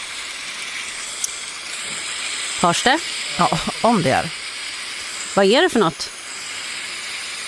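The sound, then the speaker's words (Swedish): Hail pouring down outside a stable, a steady dense hiss that runs the whole way through, with people talking briefly over it. “Det är hagel som vräker ner utanför stallet där jag var igår kväll.”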